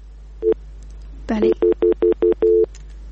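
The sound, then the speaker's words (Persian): Busy tone after a phone call drops: a short crackly burst, then a series of clipped, evenly spaced mid-pitched beeps, fairly loud against a low steady hum. “بله، متاسفانه تماس ما با برادر ما قطع شد، نمیفهم که مشکل چی بوده.”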